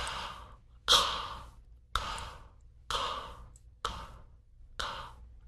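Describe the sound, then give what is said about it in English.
Slow, wordless breathing in and out, each inhale and exhale paired with a lifting motion: about five soft, airy breaths at an even pace, each starting sharply and fading away, faint and alone. “It's helpful to think lift as you inhale and then lift again as you exhale. So lift and lift again. Lift, inhale. Lift, exhale. I'll do it without talking this time.”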